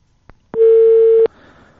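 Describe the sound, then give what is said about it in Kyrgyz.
A telephone line tone follows a dropped phone connection: one short click, then a single loud, steady beep lasting under a second, cut off by another click and followed by faint hiss. “Техникалык себептерден улам биздин телефондук байланышыбыз үзүлүп калды.”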